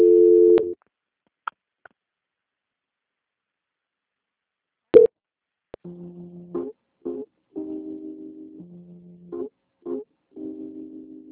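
Telephone call transfer tones on a line: a short tone, a few sharp clicks, then a run of beeps alternating between two pitches, with no voices.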